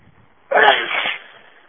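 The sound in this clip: A single loud sneeze, one sharp burst with a short breathy tail, standing alone against faint background noise.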